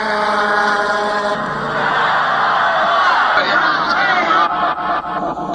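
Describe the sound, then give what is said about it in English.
Crowd tumult during violence on stage at the Altamont free concert, 1969: a dense, continuous roar of many voices yelling and shouting, loud throughout with no pause. “That was the sound of a little violence on the stage Saturday afternoon at Altamonte.”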